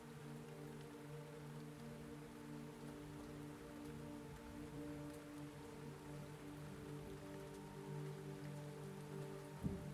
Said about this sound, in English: as the rain starts to spatter down upon above, the fog still thick around you